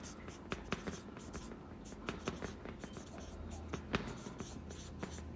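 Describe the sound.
Handwriting scratches across paper in many quick, uneven strokes, a steady run of short dry scrapes with small pauses between words.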